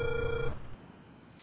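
A telephone ringback tone sounds while a call is being dialed: one steady, mid-pitched beep at the start that cuts off after half a second, leaving faint line hiss.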